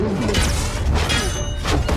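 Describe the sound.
Dull heavy thumps of fists banging on closed translucent spaceship doors, a few loud impacts over a continuous rushing, whooshing noise, with no talk.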